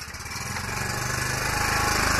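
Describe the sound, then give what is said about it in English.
A gas-powered generator runs with a loud, steady engine drone and a rapid, buzzing pulse that builds slightly in strength and then holds even throughout. “And now it is time to power the generator. The bulbs in the room shine brightly as the generator comes alive.”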